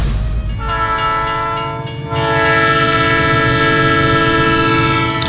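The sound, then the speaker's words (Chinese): A passenger train pulling slowly into a station sounds its horn, a loud, chord-like blast that thins out briefly and then holds steady and sustained to the end over a low rumble of the rails. “在车站看到一列客车徐徐开进站之后”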